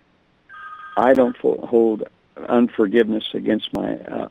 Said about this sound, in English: my cell phone. I forgot to turn it off. I've got to turn that off.